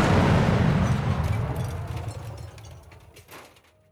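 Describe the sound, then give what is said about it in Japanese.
Bomb explosion: a loud, broad, rumbling blast that starts at full strength and slowly decays over several seconds into a fading roar, with no voices. “それはリンコさんが持っていた爆弾。”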